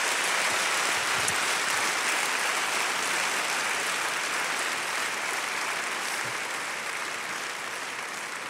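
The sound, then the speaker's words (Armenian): A church audience applauds in continuous, dense clapping that holds steady throughout and eases slightly toward the end. “Այո, եկեք ծափարենք Տիրոջ, հալելույա։”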